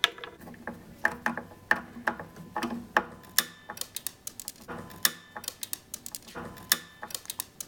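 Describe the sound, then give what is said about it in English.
Rapid, sharp clicking from a screw being over-tightened into a wooden guitar strap button until it breaks: many crisp ratchet-like ticks in uneven bursts, with no talk. “That's what happens when you over-tighten a wood strap button. It breaks.”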